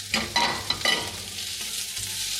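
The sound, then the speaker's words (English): Garlic sizzles in a pan with translucent onions over medium heat. A few stirring scrapes come at the start, then a soft, steady frying hiss continues on its own. “then you can start adding the garlic. Keep the medium heat and slide those little flavor boosts into your pan”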